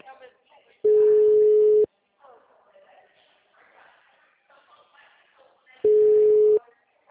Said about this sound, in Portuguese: Eu liguei pra ela, não tá atendendo.